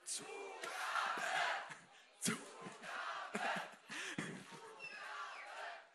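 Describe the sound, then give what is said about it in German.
Concert crowd at an acoustic singer-songwriter show shouting for an encore, loud chanted bursts in an uneven rhythm that rise and fall in waves. “Könnt ihr alle nochmal eine Zugabe geben? Nochmal eine Zugabe, dann hört sie es.”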